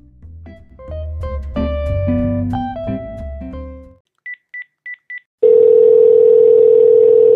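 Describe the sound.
Outgoing phone voice call: a short burst of upbeat music, then four quick high beeps, followed by a loud, steady single-pitch tone as the call starts ringing.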